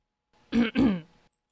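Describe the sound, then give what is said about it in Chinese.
A person clears their throat in two quick, gruff voiced bursts, followed by a faint trailing breath. “他看见爸爸站在最高的小山坡上，清了清喉咙。”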